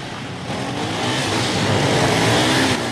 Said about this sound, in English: She turns her head at the sound of approaching motorbikes.